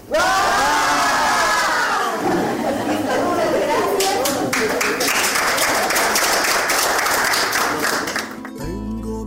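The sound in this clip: A crowd of young people and grandmothers lets out a loud shout together at a community gathering. Many voices rise at once, then give way to ongoing chatter and scattered tapping and clapping.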